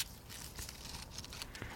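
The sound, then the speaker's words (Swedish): Dried roses are cut off in a rose garden, giving faint crinkly rustling and crackling with a few sharper snipping clicks, with no voices. “Jag klipper bort rosor som har torkat”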